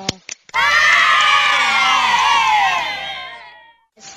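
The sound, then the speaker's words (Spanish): A crowd of children cheers and shouts together at a library Children's Day event. The high, loud chorus of voices holds steady for about three seconds, then fades. A few brief voice sounds come just before it. “Le damos un aplauso. Un aplauso.”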